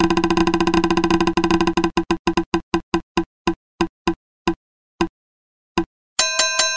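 A spinning prize wheel clicks rapidly against its pointer, then the ticks spread farther and farther apart as it slows to a stop, followed by a bright ringing chime.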